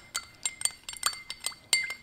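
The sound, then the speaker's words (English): A metal spoon clinks against a glass while stirring raw organic honey into warm water: many light, high-pitched clinks in quick, irregular succession, some ringing briefly before the next tap. “You could take this directly, or you could place it in some warm water, melt it in warm water,”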